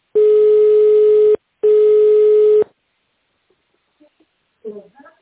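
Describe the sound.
Telephone line tones sound while a call is transferred: two long, steady, mid-pitched beeps separated by a short gap, followed by near silence with only faint scattered noises at the end.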